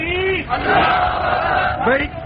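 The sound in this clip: A crowd at a rally roars a slogan in unison in answer to a leader's takbir call. One amplified shout is followed by a long massed chant, and then the leader's voice returns.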